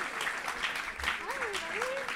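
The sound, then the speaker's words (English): Audience applause and cheering welcoming a guest, a dense steady patter of clapping at moderate level with a whoop and a voice rising over it. “huge fucking Torontonian round of applause for our guest tonight, Suze.”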